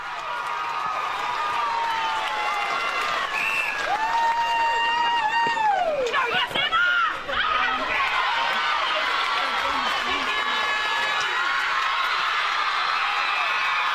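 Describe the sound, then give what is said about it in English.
Netball players cheering and celebrating an A-grade grand final win: a steady, loud din of excited shouting and whooping voices that runs unbroken throughout. “That is the sound of the Navar players celebrating their win, a historic, emotional, bittersweet flag for the Grasshoppers, the first in 10 years.”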